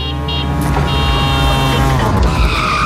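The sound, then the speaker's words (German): Tyres screeching as a tuk-tuk skids past: a loud, continuous high squeal layered over a steady engine whine, holding for the whole stretch with no talk over it. “Wenn das Tuk-Tuk durch Deutschlands Bigste Beats fährt”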